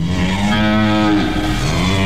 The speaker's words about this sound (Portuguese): E tem aquela vaquinha de leite, será?